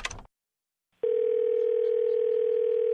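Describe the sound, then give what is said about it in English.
Telephone dial tone: after a brief opening sound and about a second of silence, a steady, continuous hum holds at one even pitch until the end. “These aren't numbers. Those aren't numbers. They're dial tones.”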